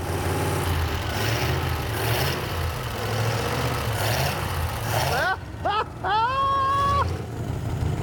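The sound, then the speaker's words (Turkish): An engine nearly sixty years old runs with a steady, low, rumbling idle throughout; a person's voice is heard briefly over it near the end. “Gaza basarım ben. Hadi bakalım, bas marşa.”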